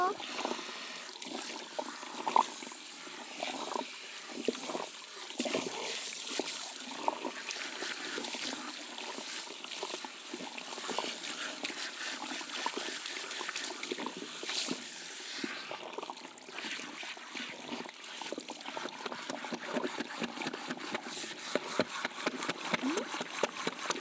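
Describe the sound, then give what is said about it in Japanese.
Running water wets the hair and scalp down to the roots during a hair wash, a continuous splashing trickle that shifts as it moves over the head and grows busier and more spattery toward the end. “最初にちゃんと根元まで濡らして、頭皮を柔らかくしますよ。”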